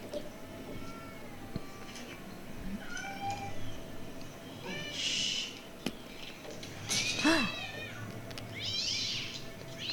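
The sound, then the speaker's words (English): Many cats meow and yowl in overlapping calls, some higher and some lower, their pitches bending up and down over a soft background hiss. Fairly faint, with no speech. “That is more than a couple. There's a lot of cats.”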